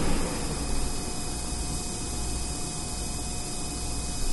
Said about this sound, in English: See, that is the sound of the ozone. It's being produced, and then that is the sound of the fan.